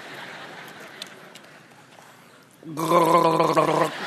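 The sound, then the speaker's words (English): Gargling breaks in abruptly after a stretch of quiet background hiss: a throaty, bubbling rattle with a voiced buzz that lasts about a second and then stops. “Sometimes you just got to gargle, right? It's very important.”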